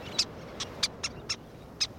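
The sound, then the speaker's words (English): Least terns calling on a sandy beach: six short, high, squeaky-toy-like chirps, fairly faint and irregularly spaced over a steady low hiss. “Sounding like squeaky toys, least terns dive in the surf, catching small fish.”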